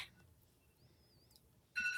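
A mobile phone ringing, a faint high wavering tone first, then a loud, bright electronic ringtone that breaks in abruptly near the end and stays steady.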